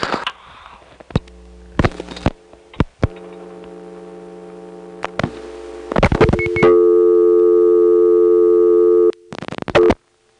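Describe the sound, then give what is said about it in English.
Touch-tone dialing on a telephone line: a series of short, sharp keypad beeps broken up by a steady humming line tone, then a long sustained tone and a last burst of beeps. “now I'll demonstrate dialing 44 plus 0 plus the last four digits”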